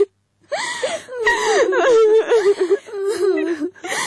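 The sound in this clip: A distressed woman cries and wails, breaking into loud, wavering voiced sobs with short gasping pauses between them.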